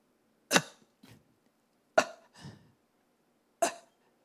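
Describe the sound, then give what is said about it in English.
A voice imitates gasping, suffocating breaths: three sharp, short rasping intakes, the first two each trailed by a fainter breathy release, spaced well apart and heard alone. “So maybe only an asthma patient can relate to this, or a fireman. This is how you breathe in hell.”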